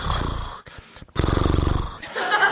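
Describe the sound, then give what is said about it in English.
Heavy exhaling of a sleeping woman at night: a few long, raspy, rumbling breaths out with a growl-like, snore-like texture, loud and separated by short gaps. “That's how she breathes. She exhales all night.”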